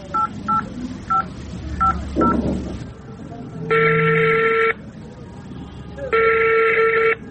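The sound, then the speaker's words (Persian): A telephone is dialed with five short, high keypad tones, followed by two long, steady ringing tones separated by a pause. “این حالا برش جسی زنگ میزنم”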